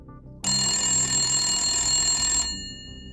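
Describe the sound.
An office telephone rings once, a loud, bright electronic trill that holds for about two seconds and then fades away.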